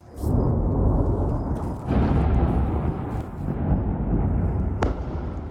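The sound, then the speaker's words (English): Explosions from overnight airstrikes in southern Lebanon: a loud, continuous, deep rumbling roar with a couple of brief dips in intensity and a sharp crack near the end. “There have been a series of new explosions in southern Lebanon overnight, following Saturday's escalation in Israeli strikes.”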